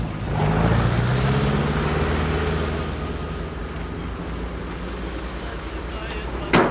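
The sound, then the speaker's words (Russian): Two cars driving away in a film scene, a low engine rumble with a steady hum over a windy background. The sound gradually fades as the vehicles depart. “Мужчина тоже садится в автомобиль. Оба автомобиля уезжают.”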